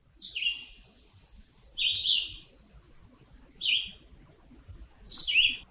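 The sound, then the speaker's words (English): A red-eyed vireo sings four short, high, chirpy whistled phrases, each separated by a pause of more than a second, over faint low background hiss. “Let's take a listen to that red-eyed vireo again.”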